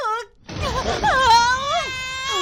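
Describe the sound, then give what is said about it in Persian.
A young girl cries in long, wavering wails with quivering, high-pitched harmonics, one short cry followed by a sustained sobbing run that dips and rises. “گریه نکن دختر گلم، گریه نکن، خواهش میکنم. گریه نکن عزیز بابا”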